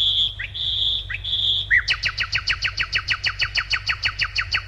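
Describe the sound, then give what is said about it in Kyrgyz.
Birdsong in quiet city streets during a quarantine lockdown: a few long, high whistled notes, then a fast, regular trill of many rapidly repeated chirps, loud and clear with no voices. “Мындай учурда биз унутуп бараткан добуштар көбүрөөк угула баштады. Бул сайраган куштар.”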